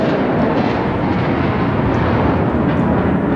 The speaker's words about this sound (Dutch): Dit is het geluid van een F-35 die landt.